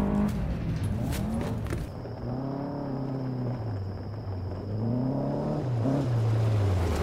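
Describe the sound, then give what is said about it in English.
An all-terrain buggy engine driving at night gives a steady rumbling drone whose pitch wavers up and down as it moves, with a broad hissing noise layered over it. “You couldn't have gone with a vehicle with the heater? Oh, come on. The buggy's the best thing for all terrain.”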